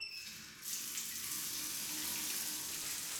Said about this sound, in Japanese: こんなもんか。ではシャンプーを流していくぞ。